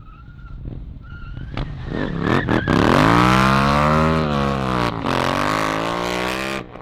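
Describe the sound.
A vehicle's engine revs through a U-turn: a loud, droning tone climbs in pitch, holds steady, then shifts again. A few short sharp bursts come just before the climb. No talk.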